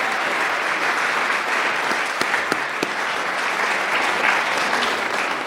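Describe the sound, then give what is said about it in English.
Audience applause welcoming a speaker to the stage at a church grand opening, dense and steady throughout, with a few sharper individual claps standing out. “Would you please welcome up Krista Linden? Let's give her a hand.”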